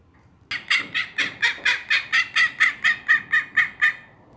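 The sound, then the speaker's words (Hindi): Panicked ducks fleeing, calling in a rapid, evenly spaced run of more than a dozen loud, nasal honking quacks of similar pitch that starts abruptly and stops just as suddenly, with no voices. “Angus ने कहा, बतखें घबराकर अपने पंख फड़फड़ाती भागी।”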